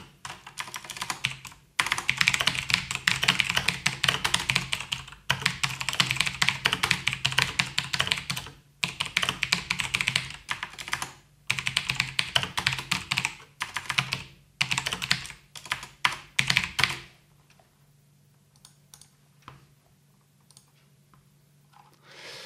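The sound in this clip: Rapid typing on a computer keyboard rattles along in long, dense bursts of clicks broken by brief pauses, then stops and leaves only faint scattered taps near the end.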